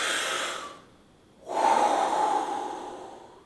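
Deep breaths of air, drawn as a slow breathing demonstration. Two long, soft, airy breaths are separated by a short quiet pause, and the second is louder and longer.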